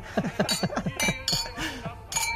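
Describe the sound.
A few bright clinks of wine glasses meeting in a toast, each leaving a short ringing tail, heard among several people talking and cheering.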